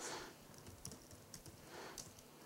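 Faint typing on a computer keyboard while text is entered, with a few soft, irregular key clicks over a low background hiss.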